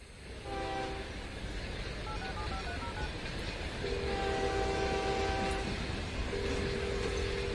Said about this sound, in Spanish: aquí a punto de abordar el tren